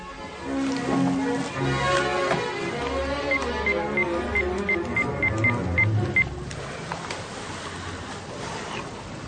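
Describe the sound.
Touch-tone telephone dialing at home: a quick run of short, even beeps, evenly spaced, over a low background rumble and hiss.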